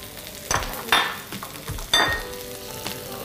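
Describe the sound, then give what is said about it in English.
Red, green and yellow bell peppers and onion being stirred in a frying pan, a steady sizzle broken by a few bright scraping clatters of a utensil against the pan, with no talk. “Give it a gentle, just a gentle stir, you know. Don't overcook the bell peppers and all.”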